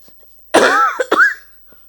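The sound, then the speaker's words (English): Two harsh, loud coughs from one person in quick succession, the first longer with a rough, voiced quality, the second shorter and sharper, with silence around them. “I have a spirit coming now. That's why I'm coughing.”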